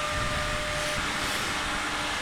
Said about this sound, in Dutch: Nou, we staan nu dus voor een electrolyzer. Links, heb ik me net laten vertellen, komt er chloor uit. Rechts eh, komt er waterstof uit.